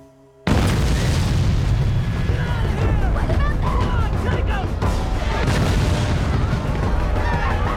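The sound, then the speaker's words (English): Rocket fire strikes a village in a war scene with a sudden loud onset of booming blasts and a dense, rumbling roar that persists throughout. Wavering high-pitched wails rise and fall over the din. “The village is attacked with rocket fire.”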